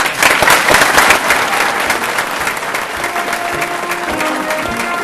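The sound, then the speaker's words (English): Crowd applause at a citizenship naturalization ceremony: a steady, dense roar of many hands clapping at full volume for the whole span, easing slightly midway, with faint tonal notes surfacing in the later half. “join me in a round of applause for our new”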